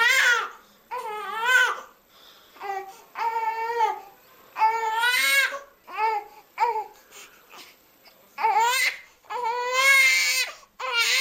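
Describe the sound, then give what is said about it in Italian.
An infant cries in many loud, wavering bursts separated by short breathing pauses, the wails rising and falling in pitch; no talk is heard over it. “ciascuno di noi a casa può indovinare per che cosa si nasconde dietro questo vagito, quale bisogno vuole comunicarci il nostro bambino”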